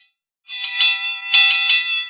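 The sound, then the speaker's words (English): A firehouse fire alarm bell rings continuously with a bright, metallic, high-pitched clang that pulses in rapid rattling surges, loud and alone. “That alarm is still ringing.”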